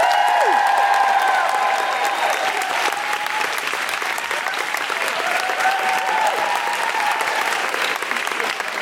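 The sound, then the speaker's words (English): An audience applauds as a guest is welcomed onto a stage. The clapping is loud, dense and continuous, holding steady throughout. “Put your hands together and make extraordinary noises for the wonderful Jenny Eclair.”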